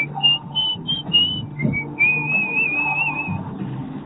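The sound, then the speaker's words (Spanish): Whistling carries a song intro as a clear, high whistled melody, first in a few short phrases and then in a longer sustained line, over a quieter low backing. “Le metió silbido y todo, ¿eh?”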